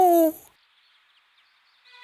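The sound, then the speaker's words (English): A voice imitates an owl hooting with one short, loud, tonal hoo at the start, then near silence. “Hoot like an owl. Hoo! Hoo!”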